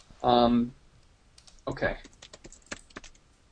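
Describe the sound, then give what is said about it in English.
Typing on a computer keyboard: a quick, irregular run of many light key clicks, fairly quiet, following a couple of short bursts of talk. “click here that I just typed.”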